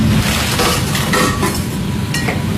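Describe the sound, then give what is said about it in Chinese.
Tender mugwort leaves are mixed into hot-water dough right in the pot, making steady, dense stirring and scraping noise with a few light clinks and no talk. “啊，直接就在这锅里和了。”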